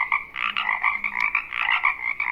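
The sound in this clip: Frogs croaking in a steady, rapid run of raspy, pulsing calls that overlap into a continuous chorus, with no voices.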